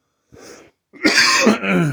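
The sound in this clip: Throat clearing from a dry throat: a soft, brief rasp, then a louder, harsher clearing that lasts nearly a second.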